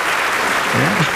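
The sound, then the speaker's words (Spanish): Applause from a crowd of people in a studio booth: a steady, dense wash of clapping at full strength throughout, with a voice briefly sounding over it near the end. “le quiero agradecer a toda la gente que está aquí en la cabina, ¿no? Que hay mucha gente. Hay mucha gente, y mucha gente. Y le echa ganas a sus aplausos.”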